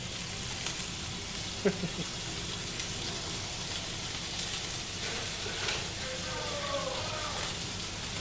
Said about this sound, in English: So what I'm doing is this is what we call searing. So all I'm doing is got a nice brown colour on the top. I've just turned it over.